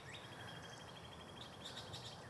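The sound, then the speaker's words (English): Birds call in the early morning in Franklin, Massachusetts: a faint, sustained high whistle and a few short chirps over a steady background hiss. “Listening to the bird calls early this morning here in Franklin, Mass.”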